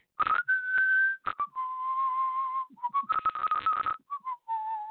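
A whistled melody from a TV series' opening theme: clear, high whistled notes, some held long and some short, step up and down in pitch between sharp percussive hits.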